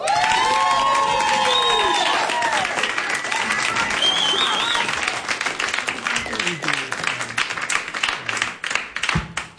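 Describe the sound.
An audience at a live music performance applauds and cheers after the performers, with whoops and whistles over dense clapping at first. The clapping gradually thins into scattered, separate claps toward the end.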